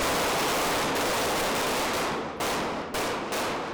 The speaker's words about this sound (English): He's pulling out a gun. 3 rounds. Fire.